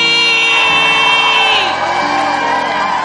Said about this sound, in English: So if you're excited, then please put your hands together. Rise to your feet. Let's shout. Welcome, Bishop Richard Aye!